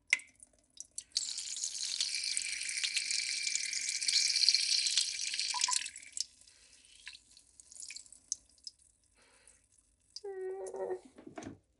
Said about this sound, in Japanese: ちょっとトイレに来ておしっこします。ああ、出る出る。